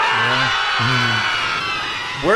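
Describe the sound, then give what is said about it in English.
People scream on a plane in a Simpsons cartoon scene as it descends, a loud, dense wash of crowd shrieking with a lower voice yelling out twice over it. “the people screaming as the plane slowly and safely descends is one of my favorite parts of the episode”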